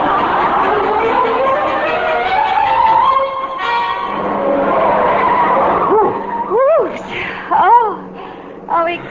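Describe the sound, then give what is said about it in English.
Tires squeal as a car is driven too fast and skids, giving several sharp rising-and-falling screeches in quick succession after a stretch of people talking. “Driver, not so fast, if you please.”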